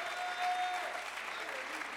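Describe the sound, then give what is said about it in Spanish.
An audience clapping hands during a bilingual church sermon: a continuous, soft patter of many hands that holds steady for the whole stretch. “Somebody clap your hands.”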